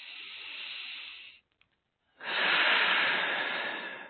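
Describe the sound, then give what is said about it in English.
A deep breath during a guided relaxation, drawn in as a soft, airy hiss, then a short pause and a longer, fuller exhale that is slightly louder. No talking. “And then one more time, deep breath and out.”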